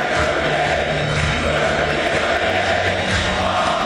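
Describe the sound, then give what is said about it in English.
Scottish Tartan Army football fans singing together at Fenway Park: a loud, continuous crowd chant with sustained sung notes fills the whole stretch. “Singing away the Tartan Army”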